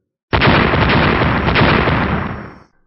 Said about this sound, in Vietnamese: Những tiếng nổ kéo dài liên tục không ngừng một khoảnh khắc nào, có thể thấy hư không chấn động không thôi.